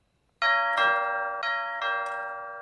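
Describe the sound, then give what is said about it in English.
A house doorbell rings alone in a few bright ding-dong chimes that come in pairs, each tone ringing on and overlapping the next before slowly fading. “The doorbell makes her jump.”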